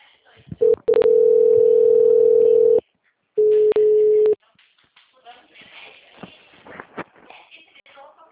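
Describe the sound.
Telephone line tones after a dropped call: a steady, loud tone holds for about two seconds, breaks off, and returns as a shorter tone. Softer, irregular rustling noise follows.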